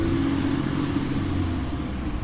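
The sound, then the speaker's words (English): A newspaper delivery truck pulls up in front of a liquor store on a city street, its engine giving a steady, unbroken rumble with a low hum throughout. “A San Francisco Chronicle truck pulls up to drop off a stack of papers in front of the liquor store.”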